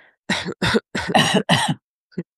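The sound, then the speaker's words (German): Deliberate, pretend coughs made as part of a breathing exercise: several short, forceful bursts in quick succession, then one faint final cough. “Einmal die Hand dahin legen und dann tun wir mal kurz so, als würden wir husten.”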